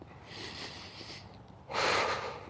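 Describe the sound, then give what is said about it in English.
Deep, loud cleansing breaths opening a meditation routine, in through the nose and out through the mouth: a long, soft rushing inhale, a brief pause, then a louder, airy exhale, with no talk. “Few cleansing breaths here. Yeah. In through the nose, out through the mouth.”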